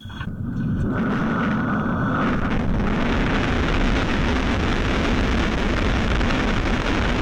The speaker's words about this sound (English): You're used to hearing the rocket launch from the launch pad, but then it gets quiet as the rocket goes up. But in this case, we now get to hear, John, what it sounds like on board the rocket as it shoots into space